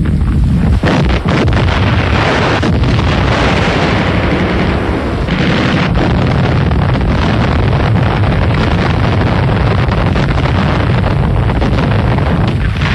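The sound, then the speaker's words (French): German artillery bombards Stalin Line fortifications camouflaged as peaceful farms. A few sharp, heavy blasts stand out over a continuous roaring rumble, and the sound stays loud throughout. “L'artillerie allemande bombarde les ouvrages fortifiés qui ont été camouflés en de paisibles fermes.”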